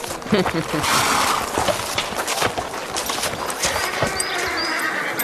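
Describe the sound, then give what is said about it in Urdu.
A horse's hooves clip-clop in an uneven run of many knocks as a caravan arrives, over steady background noise, with voices mixed in. “یہ رحمان ابن سہل کا گھوڑا نہیں ہے؟”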